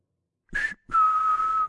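A person whistles a short note, then a longer sustained note that drifts slightly lower in pitch, alone and fairly clear.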